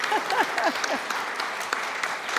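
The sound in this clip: Applause for a birthday at a holiday club gathering: dense, steady clapping from a group, with voices over the first second.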